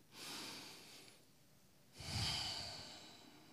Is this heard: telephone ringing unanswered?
no